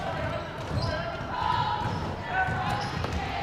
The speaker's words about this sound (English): Crossover dribble to the left side. Takes a few dribbles.